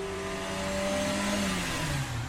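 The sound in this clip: A car engine revving as the driver races off, a steady droning hum under road noise whose pitch slides lower toward the end.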